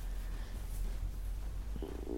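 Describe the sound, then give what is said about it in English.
A short, gurgling stomach rumble, heard as a low bubbling purr that surfaces near the end over a steady low background hum. “Oh, my stomach rumbled then.”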